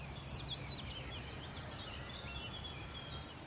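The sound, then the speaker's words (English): Willow warbler singing up ahead along a climbing country lane: thin, high, slurred warbling phrases that run on continuously, faint above a steady low background rumble. “I've stopped here after sort of a long, arduous climb up this lane. Been about 2 miles now, just because there is a willow warbler just up ahead.”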